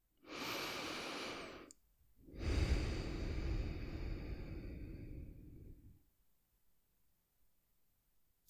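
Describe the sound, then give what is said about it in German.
Deep, slow breaths drawn through the nose: two long airy breath sounds, the second longer and lower in tone, alone in otherwise quiet surroundings. “nimm zwei, drei ganz tiefe und bewusste Atemzüge über deine Nase”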